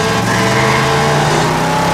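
A car engine accelerates hard to overtake, producing a loud, continuous droning roar with steady harmonic tones throughout and no voices.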